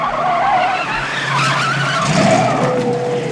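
Tires skid and squeal as a car's steering wheel is turned hard: a loud, sustained screech with a pitched whine running throughout, surging in intensity near the end over a rough engine roar.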